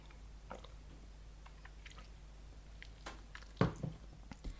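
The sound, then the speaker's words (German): A small sip of a drink makes a few faint, soft wet mouth sounds and light clicks, with one slightly louder slurp near the end and no talk. “ich trinke gerade mal ein Schlückchen, sonst geht meine Stimme nämlich weg.”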